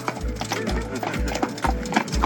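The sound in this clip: Hooves of horses pulling carts on the road to Morskie Oko clip-clop in a steady, even rhythm, with many loud strikes continuing throughout.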